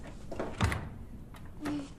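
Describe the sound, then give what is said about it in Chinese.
A door is pushed shut in a home: one soft, muffled thud, then faint rustling and a lighter bump. The whole clip is quiet. “关上门啊！”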